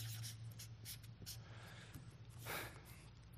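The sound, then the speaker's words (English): Faint scratchy strokes of someone writing words inside drawn circles, a few short bursts of pen-on-surface rasping separated by brief pauses, with no talk. “in this inner circle, I'm going to write influence. Now I have to spell. Fluence. And in this outer circle, I'm going to write concern.”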